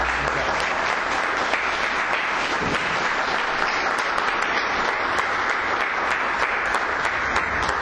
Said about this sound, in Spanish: Padre Ignacio, muchas gracias por su presencia y lo recibimos con un fuerte aplauso.